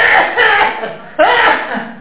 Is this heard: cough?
yes